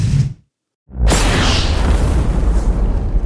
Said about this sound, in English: The asteroid strikes the Earth along what is now called the Yucatan, the spur-like peninsula that juts out of southern Mexico into the Gulf. It drives itself into the Earth, digging out a crater 110 miles in diameter and 9 miles deep.